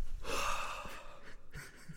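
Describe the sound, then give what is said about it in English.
A very deep breath taken by a person mid-conversation, a loud airy gasp-like inhale that swells early and then trails into softer, uneven breathing noise. “I just took like the deepest breath.”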